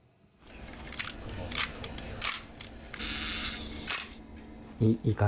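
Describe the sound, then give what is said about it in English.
A film camera shutter clicks in a Tokyo repair workshop: a series of sharp, crisp mechanical clicks and a longer whirring burst, followed by a brief voice at the end. “That click sounds great. Not heard on modern cameras.”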